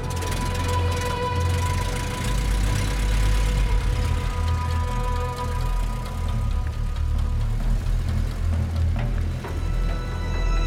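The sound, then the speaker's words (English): A car reverses along a dirt road, giving a steady, continuous engine rumble that stays at an even level throughout, with no voices. “She turns around to see the car backing up the dirt road.”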